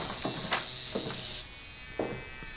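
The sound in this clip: Electric hair clippers buzz steadily while shaving someone's head for lice, a continuous hum lasting about a second and a half before cutting off, followed by a few faint brief knocks.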